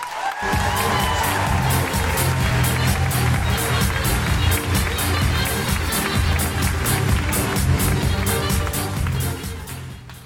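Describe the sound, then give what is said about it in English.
Loud audience applause and cheering at a comedy night as a performance poet is welcomed on stage: dense, continuous clapping with whoops that rises quickly at the start, holds steady, and thins slightly at the end. “Put your hands together and make incredible noises for Holly McNish.”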